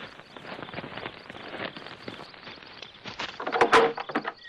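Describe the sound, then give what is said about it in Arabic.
A door being opened, with shuffling and knocking sounds that build to a louder clatter near the end. “نعم نعم نعم، سأفتح الباب. نعم سأفتح.”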